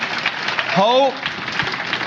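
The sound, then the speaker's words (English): Audience applause for a man being welcomed: a dense, steady wash of clapping throughout, with a brief rising voice calling out over it midway. “Give him a big hand clap.”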